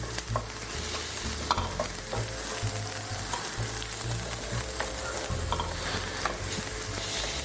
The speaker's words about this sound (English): The onions look like they are getting to the point. I'm going to turn the heat down to very low so that I don't burn them